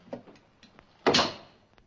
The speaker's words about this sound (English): He picks up another, puts it in the guillotine, and slams the blade.